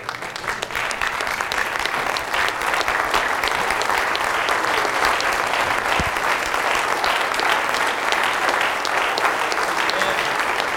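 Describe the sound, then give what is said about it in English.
A standing church audience claps hands in praise to Jesus. The clapping is continuous, dense and rapid, and keeps a steady, full level for about eleven seconds without a break. “Let's stand and give Jesus a hand clap of praise, would you?”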